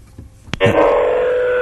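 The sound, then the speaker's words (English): A steady electronic telephone tone for an incoming call starts after a sharp click, then holds loud and level, buzzing with bright harmonics until the end. “That's a phone call from the year 2056.”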